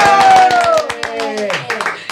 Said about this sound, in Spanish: ¡Aplausos!